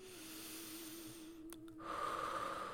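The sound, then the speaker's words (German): Deep, strong breaths during a guided relaxation, heard as a soft breathy rush over a steady low hum, growing slightly louder and brighter toward the end. “Und nimmst jetzt noch ein paar ganz kräftige Atemzüge.”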